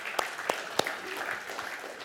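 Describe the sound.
Scattered audience applause at a talk: a soft, quiet patter of clapping with a few sharper, louder claps standing out early on, then thinning to an even murmur of hands.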